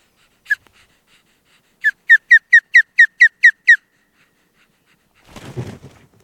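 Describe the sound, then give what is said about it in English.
An osprey calls during the breeding season: a single sharp, high whistled chirp, then after a pause a rapid, evenly spaced run of similar piercing chirps, followed by a short burst of low noisy rustling. “did the bird sound tired, exhausted, but yet ready and anxious to get another breeding season started again?”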